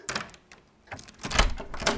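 A key rattles and clicks in the lock of a wardrobe door, which is then pushed open, giving a run of short clattering knocks and scrapes at moderate loudness.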